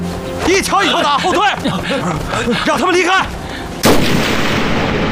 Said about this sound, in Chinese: 对，开枪，再动一下试试。别一枪打死他，一条胳膊一条胳膊的打。